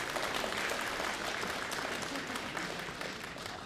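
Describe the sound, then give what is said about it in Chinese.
Audience applause greeting a comedian about to perform a Shanghai-style stand-up monologue: a dense, even wash of clapping that eases slightly toward the end. “谢谢大家，想不到还真有人鼓掌啊”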